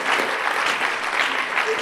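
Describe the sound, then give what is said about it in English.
Church audience clapping during a sermon, a dense, even burst of many hands that holds steady for a couple of seconds. “If you are clapping, clap well. I don't know why you are clapping.”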